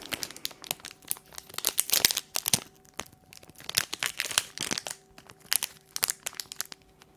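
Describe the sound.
A condom wrapper is torn and worked open with many sharp, uneven crinkles and crackles of thin packaging, coming in irregular clusters throughout without any talk.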